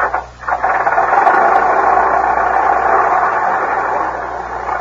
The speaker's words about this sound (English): What kind is it? Oh, it's a late model. It's a 1910 Stanley steamer.